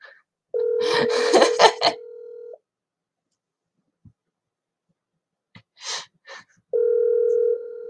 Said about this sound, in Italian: Quindi lo chiamo live, ragazzi, lo chiamo live. Vediamo se risponde.